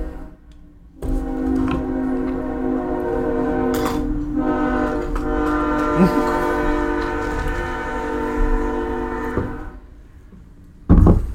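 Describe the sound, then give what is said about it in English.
A train passes with a long, loud horn blast over a steady rumble that lasts about eight seconds, then cuts away, followed by a brief loud burst at the very end. “Train break.”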